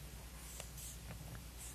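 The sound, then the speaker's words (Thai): Faint scratchy strokes of writing on a board, a few short marks standing out over a steady low hum and hiss. “มีคำคำหนึ่งที่หลวงปู่อยากจะเขียนบนกระดาน”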